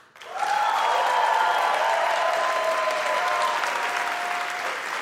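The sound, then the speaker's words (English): Audience applause: dense, steady clapping rises quickly to full loudness, holds, then eases off slightly toward the end. “make some noise, please, for Steve Levitt”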